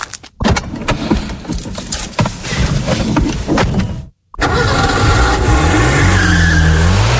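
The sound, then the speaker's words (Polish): A Renault Clio car skids with squealing tires and a revving engine, loud and gritty with repeated bursts. After a brief silent gap, a steady rush of road noise returns, with rising and falling tonal engine whine. “Ktoś z was wygra Renault Clio i wasza przyszłość będzie wyglądała tak.”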